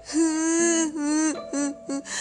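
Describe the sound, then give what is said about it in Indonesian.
A human voice imitates a frog crying, with sobbing, whimpering wails. It comes in a few drawn-out phrases, with short breaks between them. “Katak pun menangis.”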